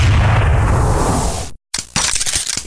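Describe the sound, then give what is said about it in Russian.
A gunshot sound effect in an audiobook: one loud blast with a long, rumbling decay, a moment of silence, then rough crackling noise. “Раздался выстрел.”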